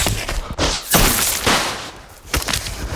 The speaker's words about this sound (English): The snatchers fire with their wands and start gaining on them.